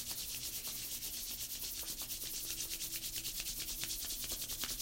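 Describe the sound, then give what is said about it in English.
Brisk dry friction of two hands rubbing together to warm them, many quick back-and-forth strokes in a steady, even rhythm, with no talk. “Rubbing the hands nice and warm.”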